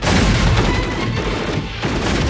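Heavy gunfire rolls through a battle scene as troops are ordered to fire on a retreating enemy. Dense, loud bursts and booms blur into one continuous barrage with no clear gaps.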